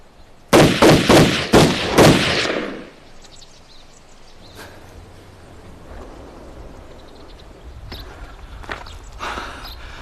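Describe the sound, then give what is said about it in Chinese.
Gunshots from a handgun: several loud, sharp cracks fired in rapid succession within about two seconds, then a quieter stretch with faint scuffing and shuffling. “开枪！”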